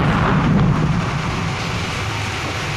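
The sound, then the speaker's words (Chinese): An explosion's roaring rumble: a loud, dense wash of noise that holds heavy and eases only slightly over a few seconds. “炸了！炸了！炸了！”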